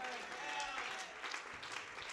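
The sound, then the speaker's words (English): Congregation clapping hands during a church service: a faint, continuous patter of many hands that runs through the whole clip, low in level, with no distinct single claps standing out. “would you shout amen and clap your hands unto the Lord?”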